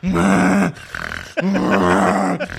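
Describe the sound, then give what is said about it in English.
A voice imitates snoring: a few long, loud, raspy, groaning snores, each broken by a short, quieter breath, with no words spoken. “like all these different snores.”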